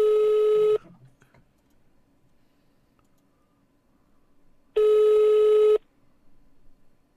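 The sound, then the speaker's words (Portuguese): Ringback tone from a phone line while calling a sleeping friend as a prank, to wake him. Two long steady tones sound alone, separated by a long quiet gap with only faint background noise. “vou ficar ligando pra ele, porque se ela acordar ele, ele vai ver a ligação e vai atender.”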